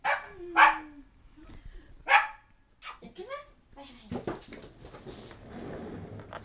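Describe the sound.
A pet dog named Rio barks, two sharp, loud barks followed by softer, shorter yips while people talk nearby.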